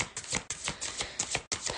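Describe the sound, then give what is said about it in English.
Tarot cards being shuffled before a card pull: a faint run of rapid, papery riffling bursts with a few short breaks, heard alone with no voices. “Morgan, I would love a card pull for guidance in the following week. Okay. So let's see here,”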